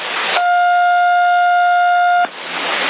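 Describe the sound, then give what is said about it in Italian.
A siren sent over CB radio: a steady two-tone electronic wail lasting about two seconds, loud and even, with bursts of radio hiss just before and after it. “E questa sirena, guardami, aspetta che te la mando io, e questa sirena qua, uguale.”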